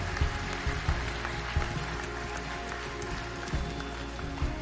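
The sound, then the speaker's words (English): A church audience applauding to welcome guests at an Easter Sunday service, a steady wash of clapping with several low thumps scattered through it. “for those of us who call the Bridge Church home, can we just put our hands together and welcome our guests today?”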